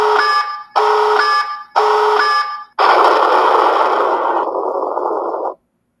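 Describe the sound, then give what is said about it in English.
Alarm sound effect warning of an incoming tactical nuke: three short, bright, buzzy electronic beeps, then one longer, harsher blast that holds for a few seconds before cutting off. No voices are heard. “Tactical Nuke incoming!”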